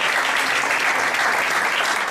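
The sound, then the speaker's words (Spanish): Audience applause at a local civic event in Leganés, a dense, steady wash of many hands clapping at even loudness from start to finish, with no voices over it. “Un aplauso para una institución de nuestro pueblo, adelante, Rodríguez.”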